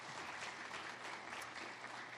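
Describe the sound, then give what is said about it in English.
A round of applause at a police ceremony and reception: steady, dense clapping from a crowd, fairly soft and even throughout without pauses. “Thank you for all that you did. Round of applause, yes.”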